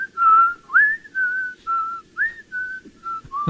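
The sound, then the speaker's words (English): A person whistles a simple, catchy song melody alone, in a clear, loud run of short, separated notes that step between nearby pitches, with one quick upward slide early on. “You can whistle it. You can sit there and go,”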